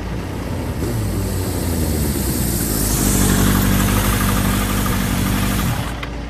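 Motorcycle engine idling with a steady, low rumbling hum that holds an even, unbroken drone throughout, with no voices.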